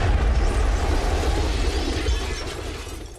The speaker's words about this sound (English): A bomber zooms above and plants a direct hit on this building.